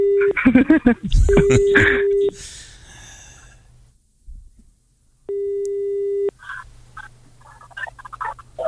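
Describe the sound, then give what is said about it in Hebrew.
A telephone call rings without being answered: two steady ringback tones, each about a second long, separated by a pause. Voices and clatter come before the first tone, and faint sounds follow the second. “הוא לא עונה את הטלפון”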